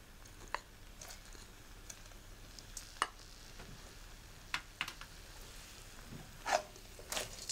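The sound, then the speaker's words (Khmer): Coconut milk and glutinous rice are stirred in a pot, giving faint, scattered scrapes and soft wet swishes over a low hiss. “ចាំយើងកូរខ្ទិះដូងជាមួយអង្ករដំណើបឲ្យវាសព្វចូលគ្នា”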